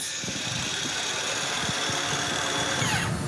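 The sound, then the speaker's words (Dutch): Construction work on an outdoor kitchen built from reclaimed garden-shed wood: a continuous, droning power-tool or sawing sound with faint knocks mixed in, steady throughout. “je hoort al, er wordt flink gezaagd en getimmerd hier.”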